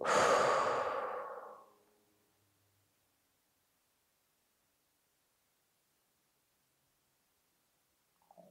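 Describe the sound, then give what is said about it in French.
A single slow, breathy exhale during a relaxation breathing exercise, loud at first and tapering away over about two seconds, followed by near silence and a brief soft sound at the very end. “On inspire, on rassemble. Et on souffle, on relâche.”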